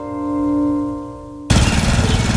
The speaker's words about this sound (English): I'm just mowing the lawn.